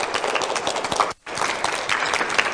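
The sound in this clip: Audience applause welcomes a guest onto a stage, a dense, steady wash of clapping that cuts out for a moment near the middle before resuming just as strongly.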